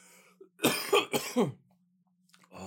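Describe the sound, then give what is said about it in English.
A quick burst of about four harsh coughs, loud and close together, comes from a person during a conversation and then gives way to near silence. “You just coughed it out of you. Yep. Coughed that thought right out.”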